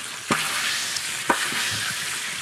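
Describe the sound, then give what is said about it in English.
Oil sizzles steadily in a pan during pan frying at about 315 degrees, a bright, even crackle. A trapped pocket of moisture bursts twice in sharp pops about a second apart, and fainter spits follow. “And that was the sound of a little pocket of moisture, which happens if you do pan frying”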